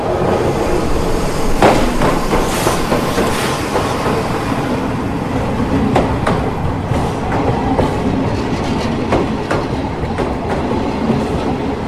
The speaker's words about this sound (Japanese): それじゃあその私の間近をこう列車が通過していくっていう音をちょっと聞いていただきたいと思います。